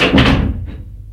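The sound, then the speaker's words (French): A door being tried but found locked gives a short, loud burst of rattling and thumping from the handle and frame, then fades into quieter low noise. “Denis se retourne et veut ouvrir la porte. Mais elle est fermée à clé.”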